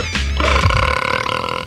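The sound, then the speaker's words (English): A long, loud burp rumbles for nearly two seconds, deep and croaky with a wavering, gurgling tone that trails off at the end. “This song will make ya burp.”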